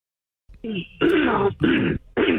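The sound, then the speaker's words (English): Someone clears their throat in four loud, rasping, voiced bursts after a moment of silence, with short gaps between the bursts. “hold on a minute with the throat clearing.”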